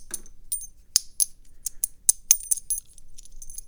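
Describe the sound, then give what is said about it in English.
Silver coins, including quarters, dimes and nickels, clink together in a run of many bright, high metallic clicks and short ringing pings. The rhythm is irregular and no voices are heard. “Yeah, over here I got two silver quarters, a few silver dimes. I think I have a Liberty Head dime in here somewhere. And a bunch of silver nickels. And I like silver coins”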